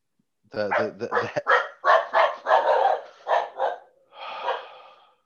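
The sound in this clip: A dog barks in a rapid series of loud, sharp barks, some with a whining, tonal edge, close together over a few seconds.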